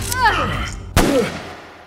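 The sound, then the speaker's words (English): A single sharp revolver gunshot cracks about midway through, preceded by a voice crying out and followed by a voice. “The shot hits Dennis in the chest.”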